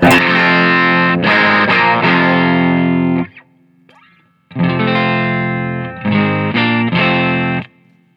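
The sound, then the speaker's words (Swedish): Heavily distorted electric guitar with the pickup set higher: a long sustained chord rings out, briefly fades to a faint hum, then returns as loud chords with quick re-strikes near the end. “Jo, man får en, liksom, en distorsion som som ökar liksom progressivt.”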